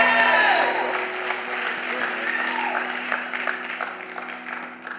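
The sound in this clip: Applause and cheering from a South Florida audience welcoming a speaker to the stage. Dense, steady clapping mixes with whoops and crowd noise. It starts loudest and eases slightly over about five seconds.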